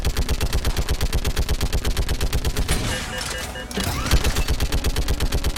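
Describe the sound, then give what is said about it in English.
Rapid automatic gunfire rings out as players shoot enemies in a video game, with steady rhythmic bursts of loud shots, a short break midway, then more firing. “So he's running forward, and we're just shooting anything that gets near his path.”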